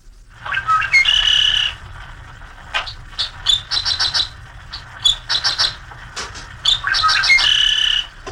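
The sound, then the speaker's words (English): A dickcissel sings on a hot Midwest summer day, repeating bright chirpy, buzzy song phrases in a steady rhythm over a low, constant rumble. “And you'll hear that dickcissel singing all summer long through the hottest days because he's a persistent singer and his song sort of goes with the long hot wind that blows in the Midwest.”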